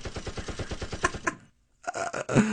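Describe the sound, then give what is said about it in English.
AR-15 rifle gunfire as a sound effect: a fast, even string of sharp shots cracks out, breaks off into brief silence, then gives way to a final burst of loud noise. “if you get out of hand in the meeting of the House of Representing, he pulls out an AR-15 and just starts squeezing off rounds.”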